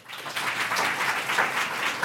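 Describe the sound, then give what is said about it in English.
Audience applause after a talk: dense, even clapping that fills the whole moment, fairly loud and steady from start to finish, with no voices over it. “Hey, Mike, when you edit that, if you could bring when I stop talking and when they start clapping a little closer together.”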